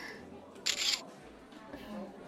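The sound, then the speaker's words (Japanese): A camera shutter fires while someone photographs a freshly served bowl of fluffy shaved ice: one crisp mechanical click-and-whir burst, brief and bright, over a quiet room murmur. “写真撮ろう。”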